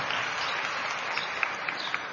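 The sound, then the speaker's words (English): Audience clapping: a steady wash of many hands at fairly low volume, with a few sharper, louder claps poking out toward the end. “I think that deserves a clap for my brothers so that they will do it when they go back home.”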